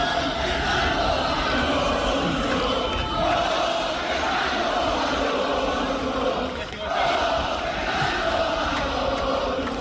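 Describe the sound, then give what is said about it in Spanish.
A crowd at the Spanish Grand Prix at Montmeló gives Fernando Alonso an ovation as he appears on stage: a loud, sustained roar of cheering voices with a brief dip partway through. “Y la verdad que casi no podía hablar ayer con estas ovaciones constantes”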